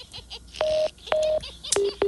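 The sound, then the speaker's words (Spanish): Telephone tones as a phone call is cut off: four electronic beeps over a noisy background, the first two longer and steady, the last two shorter and lower in pitch. “¿Qué pasó ahí, hombre? Se nos cortó ahí la llamada.”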